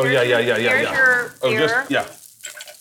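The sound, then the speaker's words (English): Food sizzles in a pan during cooking, a steady frying hiss that sits under loud, close conversation. “Let it go a little bit. Let it go a little longer. Actually, let it fry.”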